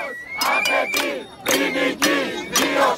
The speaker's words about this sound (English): The sounds you're hearing are Cypriot citizens rising up in anger against their government.